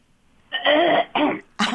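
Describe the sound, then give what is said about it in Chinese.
A person clears their throat before singing, making gruff, rasping, voiced bursts. A longer rasp is followed by a shorter one, and another rough burst begins right at the end. “要清喉咙。”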